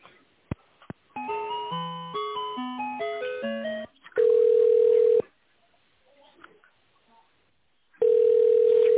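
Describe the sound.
Telephone line tones play while a call is transferred: a couple of clicks, then a quick melodic run of short tones, then two long steady tones separated by quiet.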